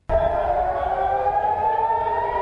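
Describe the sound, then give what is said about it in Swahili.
Air raid warning sirens in Israel sound in a loud, steady wail with a strong harmonic tone that starts abruptly and holds without a break to the end. “Ving'ora vya tahadhari vilisikika nchini Israel Jumapili”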